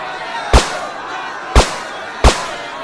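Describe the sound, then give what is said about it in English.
Tranquilizer gun shots: three sharp, loud cracks with quick decays, the first gap about a second and the second slightly shorter, over a steady background. “Those are tranquilizer shots.”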